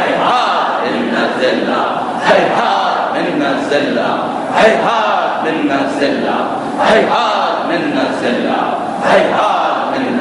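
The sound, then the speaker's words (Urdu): A large crowd loudly chants a religious slogan in unison in response to a call. The massed voices swell and fall in a steady repeating rhythm. “Bahrain کے مسلمان, حزب اللہ کے مسلمان جو سب سے زیادہ نعرہ لگاتے ہیں, بلند آواز میں جواب دیجیے گا, ہیہات من نزل اللہ”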